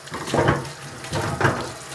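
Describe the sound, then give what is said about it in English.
Hot water runs from a tap into a kitchen sink for rinsing a utensil, a steady splashing rush that swells twice in louder surges, with no talking. “So what I'm going to do now is add some hot water”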